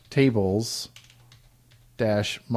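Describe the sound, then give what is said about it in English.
Light keystrokes on a computer keyboard as a MySQL command is entered, a quiet run of soft tapping in the pause between spoken phrases, with a voice talking before and after. “So with this, we type MySQL, and then intranet is the name of the database,”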